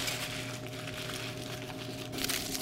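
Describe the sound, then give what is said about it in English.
Aluminum foil crinkles as it is wrapped tightly around a whole, intact head of garlic, giving a continuous, quiet rustle of fine crackles with a brighter burst near the end. “We just have a complete, intact head of garlic, and we wrap it up tightly in aluminum foil.”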